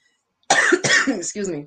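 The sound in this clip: Raspy coughing and throat clearing from a tickle in the throat, a few close, loud bursts that follow a brief silence, with no talk around them.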